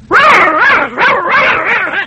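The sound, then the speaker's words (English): A human voice imitates a little dog, giving a few high, yipping, whiny barks in quick succession with a wavering pitch. “This is like a little dog would say.”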